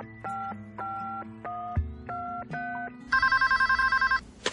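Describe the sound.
A telephone rings when a call is placed to a best friend: a run of steady electronic dialing beeps, then a rapid warbling electronic ring lasting about a second, fairly faint.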